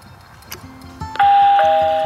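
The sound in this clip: A doorbell at a front door among four bells rings a two-note ding-dong chime that rings out and fades slowly, after a few soft clicks.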